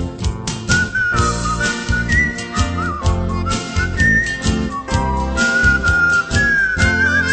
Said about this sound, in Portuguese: Assobiando sempre esta melodia, vou conduzindo o passageiro com amor.